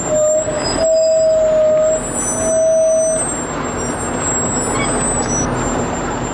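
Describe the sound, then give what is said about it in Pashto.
A column of about thirty strike tanks and dozens of armored vehicles drives from Lashkar Gah toward Nahr-e Saraj district. Loud, continuous engine roar and rumble carry high metallic squeals from the tracks, steady throughout with no talk. “د دیرشتنه ضربتي ټانک تورپلن ټیرونه او پسې لسګونه نور زغروال او شوبلې د لشکرګاه څخه د نهر سراج ولسوالۍ په لور ځي”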